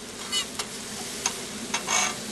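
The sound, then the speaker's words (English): Hash browns frying on a breakfast griddle: a soft, steady sizzle with a few sharper scraping or tapping bursts from utensils, fairly quiet and free of voices. “frying up hash browns into the early afternoon”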